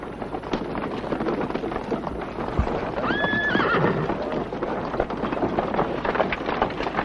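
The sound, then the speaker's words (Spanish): Horses ridden away from a convent by a group of men, their hooves clip-clopping steadily throughout, with one horse giving a brief whinny midway. “El duque se levanta y se marcha saliendo del convento con sus hombres y caballos.”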